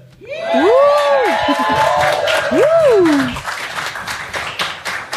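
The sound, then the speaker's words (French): A live radio show's audience cheers and claps loudly, with two shrill whistles sweeping up and down over the crowd noise; the clapping carries on, thinner, after the cheering fades. “Oh, un public en folie ce soir.”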